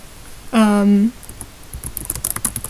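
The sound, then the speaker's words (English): Clicks of typing on a computer keyboard, a quick irregular patter of key presses that follows a short drawn-out vocal sound. “Oh my god, can you hear me type?”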